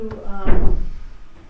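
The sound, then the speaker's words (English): A door being pulled shut during a conversation: a dull wooden thump with a brief rattle, right after a short snatch of voice, then quiet. “I'm going to go close that door.”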